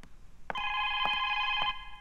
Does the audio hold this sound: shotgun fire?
no